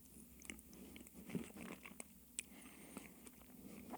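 Soft biting and chewing as a person eats ice cream, with faint mouth noises and a few gentle clicks spread evenly through. The sound is quiet and close, with no talking.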